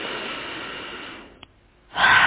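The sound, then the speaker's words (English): A deep inhale through the nose: a long, soft, airy breath that slowly fades. A short pause follows, then a louder rush of breath. “So deep inhales through the nose.”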